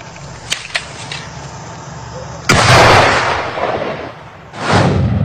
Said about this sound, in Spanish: Finalmente, los agentes explotaron y quemaron las estructuras subterráneas.